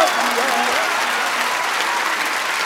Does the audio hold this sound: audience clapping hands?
yes